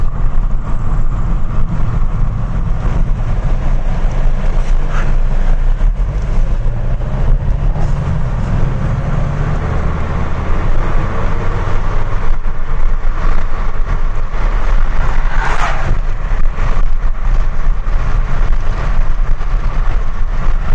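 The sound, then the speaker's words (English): A car drives through Boardman and Beaver Township, its engine and road noise forming a steady, loud low rumble that runs unbroken the whole time with no talk over it. “I'm driving around again, October 15th, 2021.”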